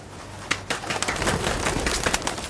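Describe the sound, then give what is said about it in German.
A pigeon flying away, with soft cooing and a run of quick rustling bursts over a steady, fairly quiet, noisy background. “Oh, Täubchen fliegt davon!”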